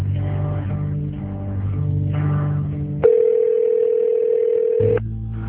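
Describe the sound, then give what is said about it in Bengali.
A telephone ringing tone sounds while a late-night call is placed: one loud, steady, unbroken electronic tone lasting about two seconds, set against a low murmuring background. “এত রাতে স্যারকে call করবে কিনা ভাবতে ভাবতে call করেই ফেলল। প্রথমবার স্যার ফোন ধরলেন না, কিন্তু দ্বিতীয় কলেই স্যার ফোন ধরলেন।”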